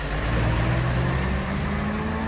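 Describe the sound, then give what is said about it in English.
Steady engine drone from a bus driving away on its return trip to Madrid, low-pitched and loud throughout, with no voices. “Another love bus returns to Madrid.”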